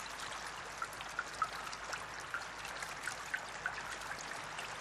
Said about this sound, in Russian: Замерев, трое смотрят на дождь спокойно, без суеты. Его шум умиротворяет, погружая душу в состояние мира, тишины.